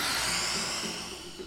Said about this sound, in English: And exhale, let it go with lion's breath.